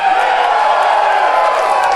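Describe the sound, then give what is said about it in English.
Live crowd cheering around a ring: a loud, unbroken roar of massed voices with occasional whoops. “The live crowd tonight.”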